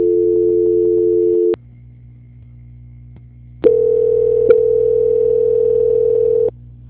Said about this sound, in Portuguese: Aguarde na linha. Transferência.